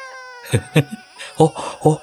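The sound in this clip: A young child cries in a few short, gasping sobs, struggling to breathe between the bursts, loud against otherwise quiet gaps.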